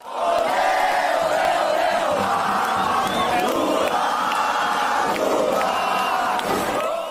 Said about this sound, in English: The following clip captures the street sound the moment Lula moved into the lead during the vote count last night.